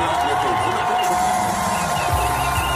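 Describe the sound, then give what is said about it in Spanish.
Hundreds of Ceuta residents gathered at an outdoor public screening cheer as a televised interview with the city's president begins, a dense and steady roar of crowd noise and mixed voices that stays loud throughout. “Así vitoreaban el inicio de la entrevista en Antena 3.”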